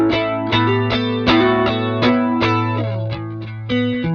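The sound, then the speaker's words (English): An electric guitar played on the neck pickup rings out clean, with a steady run of many plucked chords and notes. Each attack blooms and sustains into the next. “But this neck pickup now just sounds so clean and beautiful to me.”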